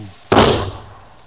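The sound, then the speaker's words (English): A single gunshot, muffled by a blanket wrapped around the gun, lands as one sudden dull thud that dies away over about half a second. “Now let's see. I wrap this blanket around the gun to muffle the sound. Aim about there. Then...”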